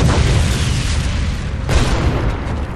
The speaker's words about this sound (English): So they tried grenades. High X and incendiary seemed the best bets.